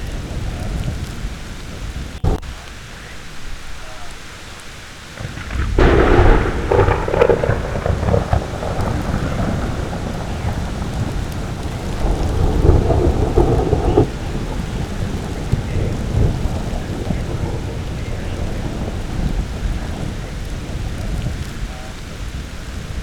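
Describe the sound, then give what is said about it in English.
A thunderstorm in Utah: steady rain patters throughout while deep rolling thunder swells up twice, once early and once midway, each rumble fading back into the constant downpour. “Our thunderstorms here in Utah are not very big. Every once in a while you get a good one.”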